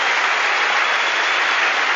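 Applause for a singer introduced on stage, a steady, hissing wash of many hands clapping that stays level and unbroken from start to finish.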